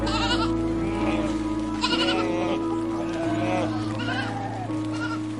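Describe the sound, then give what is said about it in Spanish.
Sheep bleating in a flock: several wavering, nasal bleats rise and fade one after another over a steady low droning background, with no talk. “Acércate al rebaño con tranquilidad y apertura. Permite que una de las ovejas se aleje un poco de sus compañeras”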